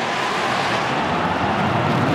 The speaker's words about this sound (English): we've got another plane flying overhead.